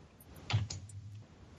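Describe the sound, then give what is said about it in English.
Quiz answers typed on a computer keyboard: a few quick, faint key clicks and taps, then near quiet. “you're ready to type your answers”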